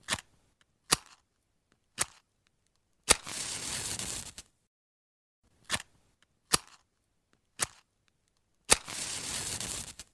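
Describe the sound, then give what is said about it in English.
A match being struck twice. Each strike starts with a few sharp, dry scraping clicks, then a longer hissing flare as the match ignites. The whole sound is quiet, with silence between events. “The sound you just heard was a recording of someone striking a match.”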